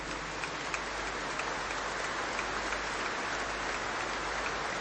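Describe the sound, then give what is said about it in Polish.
An audience applauds after a speaker's remark, a dense, steady wash of clapping that holds at an even level throughout. No single claps stand out, and no voices are heard over it. “to nie dla mnie te brawa, tylko dla powiedzenia tego.”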